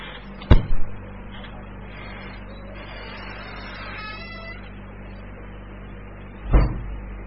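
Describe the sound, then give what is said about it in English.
Dry door hinges in need of oil creak faintly and drawn out between two sharp knocks, one near the start and one near the end. “Someone should put some oil on those hinges.”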